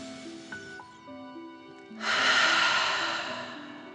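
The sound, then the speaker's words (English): A deep breath exhaled forcefully through the mouth during a fire-breathing exercise, a broad rushing breath that swells suddenly and then slowly fades over soft, sustained musical tones. “Deep breath in and out.”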